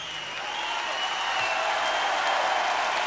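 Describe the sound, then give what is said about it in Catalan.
Concert audience applauding Eric Clapton and his band at the Royal Albert Hall in London, a smooth, dense wash of clapping that swells slightly louder over a few seconds. “Té un so característic, això, eh? Només a l'Albert Hall sona d'aquesta manera.”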